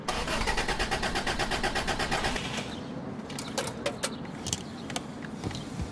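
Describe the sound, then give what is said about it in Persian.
A car's starter motor cranks an engine that will not start, giving a fast, steady, whirring rhythm for about two and a half seconds. Then it stops, and a few sharp clicks follow. “هرچی استارت میزنم روشن نمیشه. شما بریم بشین پشت فرمون استارت بزن. بزنین.”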